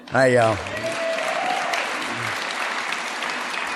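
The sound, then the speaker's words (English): Audience applause at a recovery meeting during a talk about decades of sobriety, a steady dense clatter that follows a short loud voice at the start and holds to the end. “they weren't applauding me that way in 1979.”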